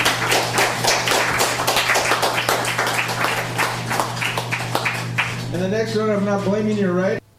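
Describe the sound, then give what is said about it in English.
Audience applause at an open mic reading: dense, steady clapping for about five seconds, then it fades under a voice speaking. “Thanks. It's Ron Chase. Let's give him another hand.”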